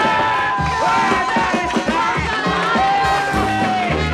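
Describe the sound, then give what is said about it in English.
A crowd of creatures cheers "hip, hip, hooray" at a royal wedding announcement and toasts the happy couple. Many overlapping voices shout and whoop in a loud, continuous din. “"Hip, hip, hooray!" cheered the creatures, and toasts were made to the happy couple.”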